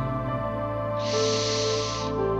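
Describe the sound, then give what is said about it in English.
Deep breath during a guided breathing exercise: one slow, airy hiss lasting about a second, over a sustained musical drone. “Breathe it in. Breathe it out. Breathe it in.”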